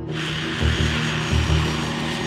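An A-10 attack airplane flies by with a loud, steady jet roar and a high engine whine. The low rumble pulses slightly underneath.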